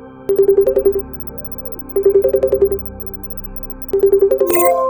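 A phone rings while a call is being placed. Three loud bursts of rapid electronic ringing pulses come at even intervals, and a short, higher, warbling electronic tone follows at the end.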